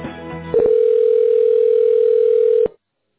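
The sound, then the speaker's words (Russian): A single steady telephone tone sounds for about two seconds while a call is transferred to an operator, following a brief voice at the start, then cuts off abruptly into silence. “К сожалению, вы неверно набрали внутренний номер. Звонок переводится на оператора.”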